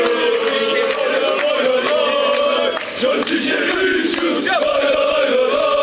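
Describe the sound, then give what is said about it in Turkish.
Fenerbahçe basketball supporters chanting in rainy weather outside the arena at the team's send-off to the EuroLeague Final Four, a loud, sustained chorus of many voices. “Yağışlı havaya rağmen salon önünde toplanan Fenerbahçeli taraftarlar tezahüratlarla takıma destek verdi.”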